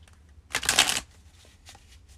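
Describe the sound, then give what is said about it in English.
Tarot cards being shuffled for a reading: one loud riffling burst of about half a second, followed by a few faint rustles. “So let's pull your cards for the year ahead.”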